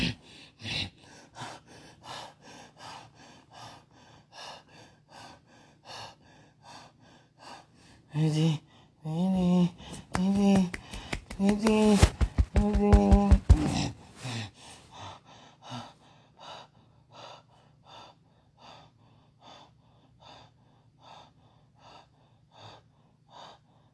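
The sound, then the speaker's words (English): Heavy breathing from a person: a run of rapid, rhythmic breaths that builds to louder, strained, voiced gasps in the middle, then eases back into steady panting. “why am I breathing like this?”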